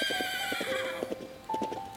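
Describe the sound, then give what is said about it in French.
A white horse gallops across a meadow and neighs, a high, wavering whinny over many quick rhythmic hoofbeats, with a second brief neigh near the end. “un magnifique cheval blanc traverse le pré et galope vers eux.”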